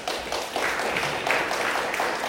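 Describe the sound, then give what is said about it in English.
A round of applause from the audience at a Torah class, a steady patter of many hands clapping at a moderate level, with slight surges in intensity as it continues. “And for that, I want you all to give yourself a round of applause.”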